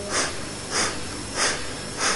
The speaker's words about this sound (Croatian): palac i drugi prst su spojeni, znači bastrika, to je disanje poput mijeha, 20 lijevom